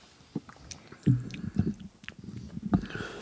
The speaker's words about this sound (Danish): Han tar to svølger, dette lover bra for den del. Smatt litt mer i mikken. Smatt på det.